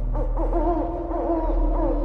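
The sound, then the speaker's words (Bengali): An owl calls into a quiet night, a few loud, wavering tonal cries repeating over a steady low hum. “নিস্তব্ধতা বিদীর্ণ করে একটা পেঁচা চেঁচিয়ে উঠল।”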